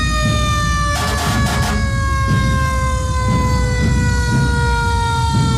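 A fire brigade ladder truck sounds its siren during a town's anniversary festivities in Santo Domingo. The wail holds steady and glides slightly lower, loud and continuous over a heavy low rumble.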